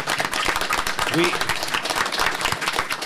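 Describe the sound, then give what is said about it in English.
An audience gives a round of applause: many distinct claps crackling in a lively, uneven rhythm at moderate loudness, with a brief voice heard partway through. “Drone Mama a big round of applause”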